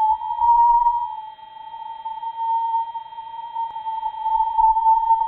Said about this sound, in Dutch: Het eerste geluid wat u hoort is een sonificatie van plasma-oscillaties, ook wel Langmuir-golven genoemd. Het verschil in toonhoogte correspondeert met fluctuaties in de dichtheid van elektronen die de Parker Solar Probe tegenkomt in de tijd.